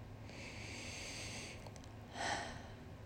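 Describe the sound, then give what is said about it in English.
Deep breathing during a guided gratitude meditation: a long, soft, airy breath followed after a pause by a shorter, slightly stronger one. Both are faint, with no voice over them. “Take a deep breath. Breathe with me or on your own in any way that feels comfortable to you.”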